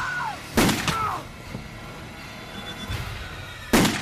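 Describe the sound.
Sharp gunshot bangs fired from a bedroom doorway, a couple of loud, abrupt cracks separated by quieter moments.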